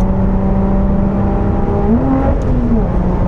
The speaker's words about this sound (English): I just blipped the throttle for you between the gear change, just so you can hear it.